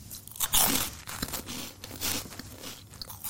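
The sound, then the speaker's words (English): A giant Wotsit cheese snack is crunched in a few loud, crisp bites followed by rustling chewing, with no talk over it. “The smell of cheese. Now, I do like a giant Watsit, I have to say.”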